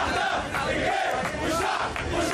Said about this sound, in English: In Cairo, a large crowd of government supporters marched in front of the defense ministry Monday, chanting slogans in favor of the Egyptian army and police.